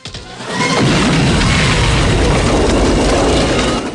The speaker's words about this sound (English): Rambo rises from the water and fires on the guards, downing one of them. The explosive detonates, killing the rest.